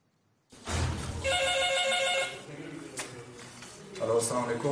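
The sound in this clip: A telephone rings at an emergency medical rescue service taking a call about a highway traffic accident. A bright, bell-like burst of ringing lasts about a second, with voices talking around it.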